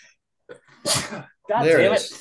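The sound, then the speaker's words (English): A sudden loud sneeze erupts after near silence as someone unmutes on a call. It comes as a sharp noisy burst followed by a second strong breathy burst, with a small softer sound before them. “I've been on mute while you guys were talking because I've needed to sneeze and it just wouldn't come. And then as soon as I unmute, immediately sneeze.”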